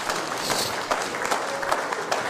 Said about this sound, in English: Round of applause for all my volunteers here.